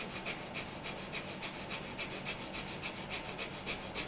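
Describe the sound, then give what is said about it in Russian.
Rapid rhythmic breathing in and out during a breathing exercise: many quick, evenly spaced breaths over steady breathy hiss, fairly quiet and continuous throughout. “Да, значит, так вот мы делаем некое количество вдохов-выдохов.”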